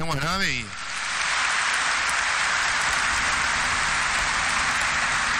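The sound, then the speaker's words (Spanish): Strong applause at a Holy Mass, rising quickly after a brief voice and settling into a dense, even, rain-like roar of clapping that continues steadily. “Y a todos nosotros, un fuerte aplauso.”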